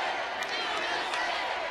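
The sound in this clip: A stadium crowd of about 50,000 cheers in a continuous, dense roar of many voices, fairly faint and steady, with no single voice standing out.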